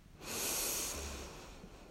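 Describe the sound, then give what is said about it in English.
A deep inhale is drawn through the nose during a guided breathing exercise: a single soft, airy, hissing intake that swells quickly, holds for over a second, and then eases off. “You take a couple of breaths into your nose and out through your mouth. You inhale deep,”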